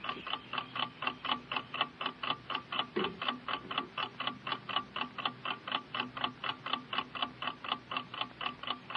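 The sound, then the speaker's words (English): A clock ticks in a fast, perfectly even rhythm, with many crisp, identical ticks repeating steadily and alone. “5 minutes by the clock, Robert. 5 minutes. Hear it ticking. Ticking your life away. It's ticking your life away.”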